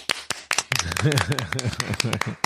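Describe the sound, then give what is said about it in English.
Audience clapping, the big clap, comes as a few sharp, separate claps, followed by a person talking over scattered further claps. “He does it for the clap. MacReady, you're getting the big clap.”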